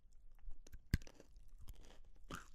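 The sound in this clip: Crunching and chewing of a lemon Dime chocolate bar: one sharp, loud crunch stands out near the start, with softer irregular munching and mouth sounds before and after it, and no talk.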